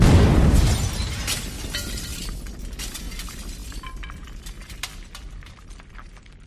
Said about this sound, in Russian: Раздался грохот. С потолка посыпалось стекло прямо на меня.